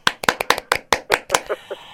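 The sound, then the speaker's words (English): Handclapping after a song performance: a series of sharp, evenly spaced claps that grow softer over the last few, with a faint ringing tone behind them. “Callum, I think you richly deserve a round of applause for that. Well done.”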